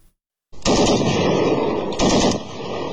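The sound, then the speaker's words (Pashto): Gunfire exchanged between Afghan and Pakistani border soldiers along the Durand Line: loud, sustained automatic fire starts abruptly after a brief silence, with a second, sharper burst surging partway through and no voices. “دا څمو د وړاندې دی پر ډیوران کرخه د افغانستان او پاکستان د پولیساتو سرتیرو د ډزو د تبادلې یو صحنه ده.”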